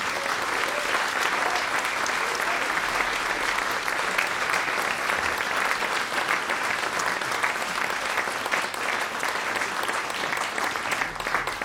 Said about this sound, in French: J'aimerais qu'on leur fasse une ovation, s'il vous plaît.